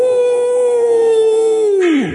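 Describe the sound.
A man's voice imitates a howl, holding one long, steady wailing note before it drops sharply in pitch and trails off at the end.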